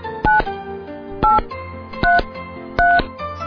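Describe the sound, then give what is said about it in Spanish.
Telephone keypad dialing tones: four short, loud dual-tone beeps at an uneven pace, each with a different pitch combination, over a quieter background. “Teléfono. Teléfono.”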